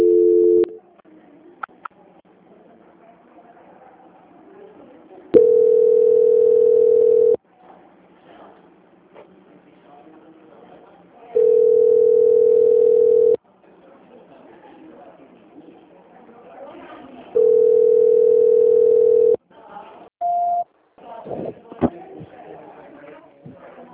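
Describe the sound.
Telephone line tone while a call is transferred: three long, steady, mid-pitched beeps spaced evenly about six seconds apart, with faint low background noise between them and a short extra tone near the end.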